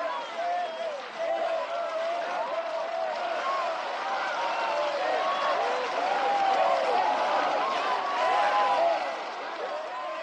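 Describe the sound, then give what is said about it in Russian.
A theatre audience breaks into stormy applause as the curtain closes and the performers bow, a thick, continuous patter of clapping mixed with many cheering voices. “Занавес закрывается. Под бурные аплодисменты зрителей радостные артисты раскланиваются и получают цветы.”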